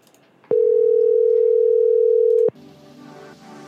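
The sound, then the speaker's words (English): A steady ringback tone plays on a telephone call that nobody picks up: one continuous, even, mid-pitched tone lasting about two seconds, loud against quiet surroundings, then cutting off into softer background sound. “that asshole doesn't want to pick up. Keep it ringing for a minute,”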